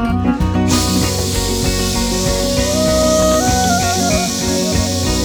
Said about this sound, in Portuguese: E um homem segurava uma mangueira apontada para o alto, jogando água no coração do fogo.